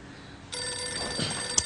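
A telephone ringing, its electronic bell tone starting after a brief quiet moment and continuing faintly but steadily to the end.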